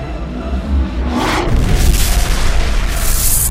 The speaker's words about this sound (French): Tire une torpille. Bon, on va tirer pour ouvrir.